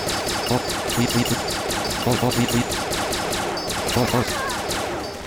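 Needle launcher firing in a video game: a fast, steady stream of rapid shots repeats loudly through the whole stretch, like machine-gun fire.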